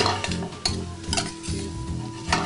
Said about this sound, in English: We're gonna let these spices just cook into the oil, let the oil take on some of that delicious spicy flavor.